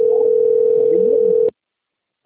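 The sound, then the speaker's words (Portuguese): Telephone ringing tone on an outgoing call: a steady, single-pitched electronic tone held for about a second and a half, then silence, then the next tone just beginning. “Você lá tá ligando aqui, ó.”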